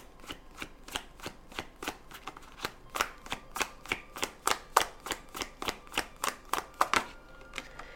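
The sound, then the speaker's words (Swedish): Playing cards snap and flick crisply in a fast, even stream of many sharp clicks as they are handled and drawn from a deck during a card reading, with no voices. “Då ska jag dra några kort.”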